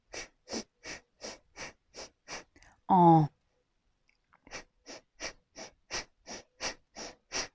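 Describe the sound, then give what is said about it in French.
Powerful bhastrika breathing through one nostril and then the other: a run of about seven quick, forceful breaths, a pause with one short voiced sound, then a second, faster run of about nine sharp breaths. “va prendre une sorte de bhastrika ou de respiration puissante qu'on va faire d'abord que sur une narine et ensuite que sur l'autre”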